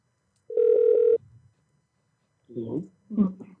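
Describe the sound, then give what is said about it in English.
A telephone tone as a number is called: one steady, buzzing tone lasting about half a second, then silence and a couple of short voice sounds. “Dixie, thanks for the number. I'm going to call your husband right now.”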